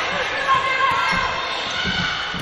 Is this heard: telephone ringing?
no